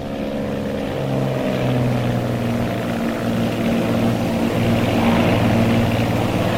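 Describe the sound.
Propeller engines of a twin-engine Twin Bonanza airplane taking off with its gear retracting, a loud, continuous droning hum with steady pulsing low tones throughout.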